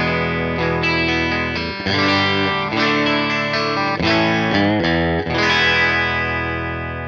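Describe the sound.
An electric guitar plays a clean tone on the bridge pickup through an amp with WGS speakers in pine cabinets: several bright, harmonically rich chords ring out and sustain one after another, loud and steady.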